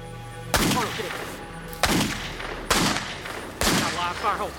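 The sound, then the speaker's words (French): Gunshots from a .357 Magnum revolver fired toward a forest: four loud, sharp blasts spaced roughly a second apart, each trailing off into a rumbling decay. “Il a brandi un Magnum 357 et a commencé à tirer en direction de la forêt.”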